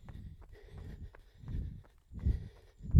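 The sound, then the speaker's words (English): Running footsteps on a road land as soft, low thuds in a steady rhythm. They grow louder toward the end, with no talk. “Actually, running on road can be quite therapeutic sometimes. The noise is much sort of, there's much more of it running on a road.”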